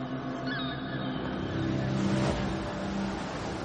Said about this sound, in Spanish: Poco después, cruza las aguas en la embarcación del pescador junto al resto.